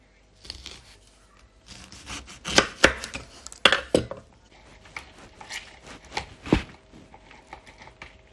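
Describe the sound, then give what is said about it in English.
Knife chopping oranges in half on a board before squeezing them for a brandy shrub recipe: several sharp, irregular knocks of the blade, some louder than others, with no talk. “I'm going to squeeze some oranges. Chop an orange in half.”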